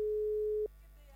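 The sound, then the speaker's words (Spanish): A steady telephone line tone sounds while a call is placed, holding one even mid-pitched note for about two-thirds of a second before cutting off into faint background hiss. “Si podemos volver a establecer el contacto, ahí estamos llamando. A ver. Estamos llamando a Daniel Campos. A ver si nos está atendiendo.”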